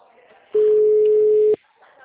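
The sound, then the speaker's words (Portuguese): A phone call's ringing tone sounds as one loud, steady, mid-pitched beep lasting about a second, with faint voices before and after it. “É que eu comecei a ligação, peraí.”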